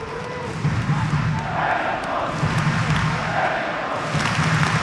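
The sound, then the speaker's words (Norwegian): Football crowd atmosphere at Lerkendal stadium during a match: a steady, dense roar of many voices with repeated surges of chanting rising above it. “Høre atmosfæren på Lerkendal også.”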